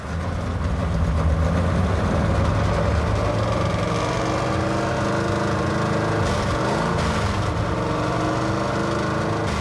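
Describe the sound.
A carbureted car engine, running again after sitting unused for nearly seven years, gives a loud, steady low rumble with throbbing harmonics that holds an even level from start to finish.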